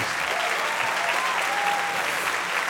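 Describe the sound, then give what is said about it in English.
An audience applauds a band with steady, dense clapping at an even level for the whole stretch. “A hand for the band”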